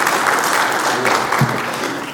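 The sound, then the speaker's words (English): A church audience applauds in a steady, dense wash of clapping that stays even throughout and fades slightly at the end. “And I've never walked in a courtroom and had them applaud for us. So this is something unique, and thank you.”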